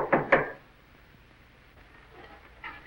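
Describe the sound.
Door being opened to admit a visitor: two quick, sharp clunks at the start, then near quiet with faint soft rustling and a light knock near the end.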